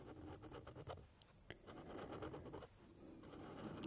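Thin pen nib scratching across paper in steady, rasping strokes with a couple of sharp ticks, alone and fairly quiet.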